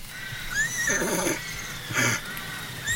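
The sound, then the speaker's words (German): A horse whinnies a couple of times, each call a high, quavering neigh rising and falling, fairly faint over quiet outdoor background with soft hoof-like thuds. “Das ist ja ein Wiehen. Es kommt vielleicht vom Ross.”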